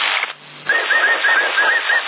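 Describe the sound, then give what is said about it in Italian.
Whistling carries over a CB radio link: a thin, wavering tone rides above a hissy, band-limited radio channel for over a second after a short dip in the noise. “Sì, hai fischiato tu adesso.”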